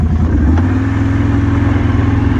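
A quad bike engine runs with a steady, low, throaty rumble and a mechanical rattle that holds an even level throughout, with no voices heard.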